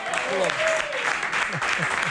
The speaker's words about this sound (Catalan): Home, un aplaudiment. Bravo. Molt bé.